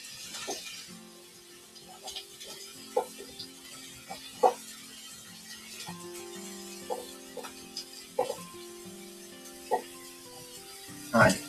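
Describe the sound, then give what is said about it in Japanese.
Onions and carrots stir-fry in a pan with a faint, steady sizzle, broken by a few sharp clacks and scrapes as the vegetables are stirred. “ちょっと炒めます。”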